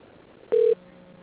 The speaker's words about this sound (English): All right, hold on 1 second. Let me put you to his voicemail.